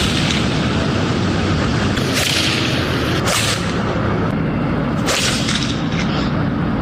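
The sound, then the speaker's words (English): Balls are struck at night into traffic and against buildings, heard as three sharp, loud bangs spaced out over a constant heavy roar. “this is what it sounds like when they're hitting the balls”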